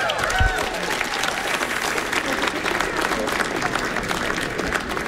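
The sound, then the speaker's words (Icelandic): A jazz concert audience applauds a musician with steady, dense clapping that holds at an even level from start to end. “Gefum hann gott klapp.”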